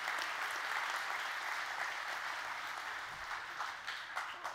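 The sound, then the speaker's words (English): Audience applause at a stand-up comedy show, given for the comedian's wife; dense, steady clapping that thins slightly toward the end. “Give her a good hand clap”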